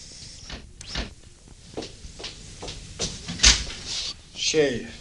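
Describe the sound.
A house door being opened: a few soft knocks and thuds lead up to a sharp latch click, followed by a brief creaking squeak of the hinge.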